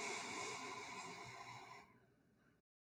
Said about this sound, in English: Just going to breathe in from our feet to our head